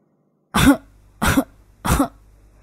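An old man gives three dry, hacking coughs, loud and evenly spaced, with nothing else heard between them.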